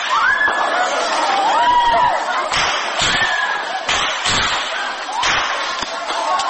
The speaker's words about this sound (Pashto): دا د هغو ډزو غوږونه او د محصلانو چیغې دي چې پر کابل پوهنتون د برید پر مهال ثبت شوي.